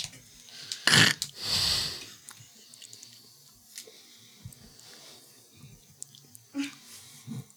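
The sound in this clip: Someone biting into a salted plum: a sharp crunchy burst, then a longer rasping bite noise near the start, followed by faint, scattered mouth and chewing sounds.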